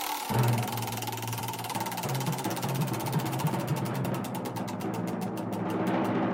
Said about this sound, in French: Je fais tourner ma roue.